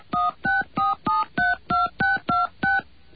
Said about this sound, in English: Please enter the area code and telephone number, followed by pound.